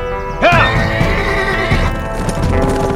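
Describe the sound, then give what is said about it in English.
Horses neigh loudly and hooves clop as riders spur their mounts over a ridge toward a camp. A sharp high whinny breaks in early, then steady hoofbeats and softer snorting carry on underneath. “They leaned forward in their saddles and spurred their mounts, bounding over the ridge to ride out of the sun straight into the outlaws' camp.”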